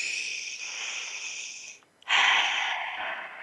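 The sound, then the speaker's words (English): A deep breath is drawn as two long, hissing breaths with a faint whistle, split by a brief silent pause. Both are steady and moderately loud, and no voices are heard. “So let's take a deep breath again.”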